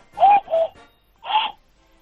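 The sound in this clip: A voice-free cuckoo call is imitated by blowing into cupped hands with the thumbs pressed together, giving hollow, owl-like hoots: two quick notes, a short pause, then a single note, fairly loud against silence.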